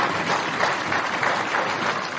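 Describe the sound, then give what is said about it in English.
Lawmakers applaud in South Sudan's parliament in Juba after a line in the president's speech. The clapping is dense, loud and steady, continuing without a break throughout. “a line that drew a big applause from the MPs”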